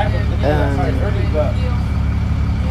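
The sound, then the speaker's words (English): A moving bus on a ride toward Skid Row gives off a steady, low engine rumble and drone throughout, with a person talking over it. “I figure I may as well do it while I'm on the bus.”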